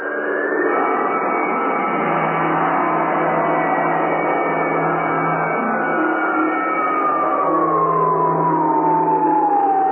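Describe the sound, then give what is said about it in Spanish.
Alarm sirens wail throughout a base, a loud, continuous siren that fills the whole clip, with a tone gliding steadily downward in pitch through the second half. “El capitán oprimió un botón y una serie de foquillos rojos anunciaron alarma general y automáticamente funcionaron las alarmas en toda la base.”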